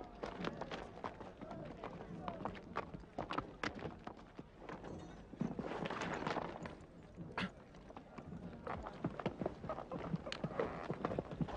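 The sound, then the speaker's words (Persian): Horse hooves clip-clop as horses are brought up and ridden by soldiers, a dense run of many quick, hard hoofbeats that continues fairly steadily through the whole clip. “اسبت را سوار شو و به دنبال من بیا. سرباز، اسب مرا بیاور.”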